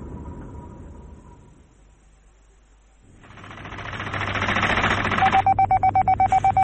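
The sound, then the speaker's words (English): Missile conveyor machinery runs under test: a low hum fades to near silence, then a loud mechanical rumble and hiss swell up and end in a rapid, steady train of rhythmic clattering pulses. “Sounds like it's coming from below. That is Kraken Control. Fisher's testing his beloved missile conveyors.”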